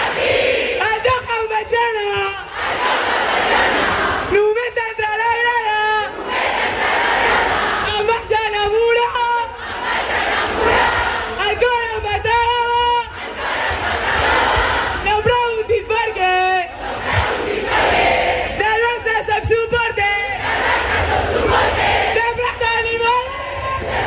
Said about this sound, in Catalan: escoltem perquè Cata Coll precisament va fer una mica de mestre de cerimònies i res més arribar a l'escenari de Maria Cristina, ja va encendre el públic.